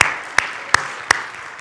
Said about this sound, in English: We can clap for them.